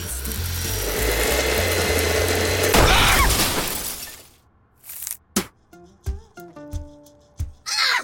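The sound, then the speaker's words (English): A grinder whirs loudly through coffee beans for about four seconds, then stops, followed by several sharp, separate clattering knocks and bangs. “Coming right up, buddy. Just gotta grind some of these beans.”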